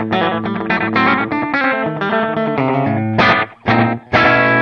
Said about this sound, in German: hast du bei dir im FM9 auch ein Slapback? Ich weiß nicht, ob man es hört